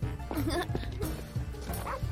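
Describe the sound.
A dog barks in a run of barks and yips, with some whimpering mixed in.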